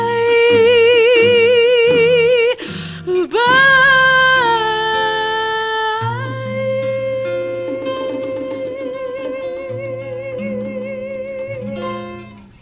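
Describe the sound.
A theater company performs a classic jazz standard: a singing voice with rich vibrato carries the melody over soft instrumental accompaniment, breaking off briefly early on, then settling into a long held note that fades at the close.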